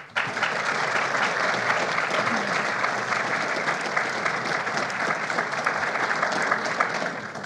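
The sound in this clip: An audience applauds to welcome a judge and a panel of speakers. The steady, dense clapping holds an even level throughout and eases slightly at the very end.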